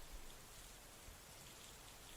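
Rain pouring down in a steady, even hiss that holds unchanged throughout, fairly faint, with no voices or other sounds.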